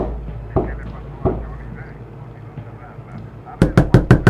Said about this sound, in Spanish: Lo escucho golpear aún más fuerte contra la madera.